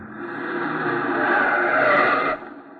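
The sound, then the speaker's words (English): Tires squeal as a car swings through a sharp turn into a driveway, a sustained, bright screech that builds in loudness and then cuts off abruptly near the end. “Okay, Kathy, okay. Oh, please. The sharp turn into this driveway.”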